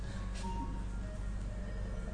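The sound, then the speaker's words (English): A mobile phone ringtone goes off in the room during a spiritual talk. It is a faint electronic melody of short tones over a steady low hum. “Well, amazing ringtones down here.”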